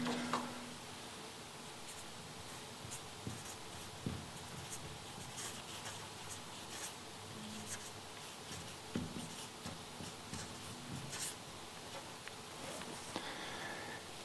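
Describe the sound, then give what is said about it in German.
Pen writing on paper: faint, dry scratching and small taps of the pen tip in irregular strokes, continuing at a low level throughout with no talk. “Nein, ich muss anders schreiben.”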